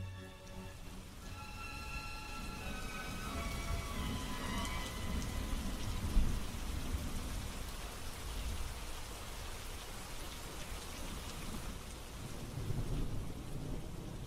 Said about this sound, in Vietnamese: Xen lẫn trong tiếng mưa nặng nề đó là tiếng rít gào ai oán, làm cho cả khu rừng trở nên ma quái.